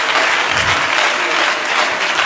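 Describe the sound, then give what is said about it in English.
An audience claps hands in praise during a church service: dense, steady applause from many people, loud and continuous for the whole stretch with no talk over it. “Come on, let's give the Lord a hand clap of praise right now.”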